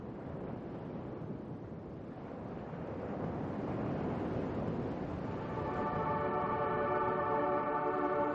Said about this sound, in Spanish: Una inmensa cantidad de agua en movimiento inunda toda la pantalla.